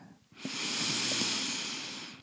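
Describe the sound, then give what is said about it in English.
A deep nasal inhale during a guided meditation: one long, steady, airy hiss of air drawn in through the nose, lasting about two seconds, fairly loud and heard alone without talk. “take a few nourishing, deep breaths. Inhale through the nose.”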